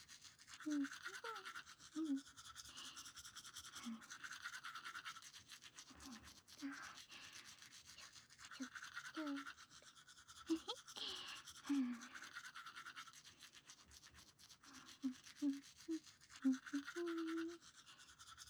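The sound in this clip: Teeth being brushed with a toothbrush, soft scratchy scrubbing strokes in irregular bursts, with a quiet voice speaking now and then over the brushing.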